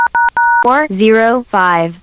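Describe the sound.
Touch tones from telephone keypad buttons being pressed: three quick loud beeps, the last one longest, followed at once by a voice speaking in drawn-out, sliding tones.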